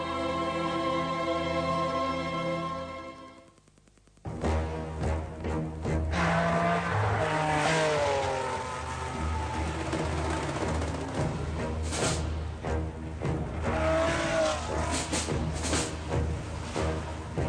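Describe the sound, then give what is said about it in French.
A car driven at high speed by a young driver roars past, its engine loud and sustained with a steady whine, dipping briefly before surging back to full volume. “Anoto Benelli arrive à toute vitesse avec sa voiture. C'est un jeune homme qui aime à rouler vite, très vite.”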